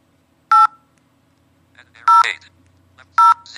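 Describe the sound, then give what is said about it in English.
Telephone keypad dialing tones: three short, steady electronic beeps spaced well apart, with a brief voice heard between the second and third. “I'm going to just dial another number, a number.”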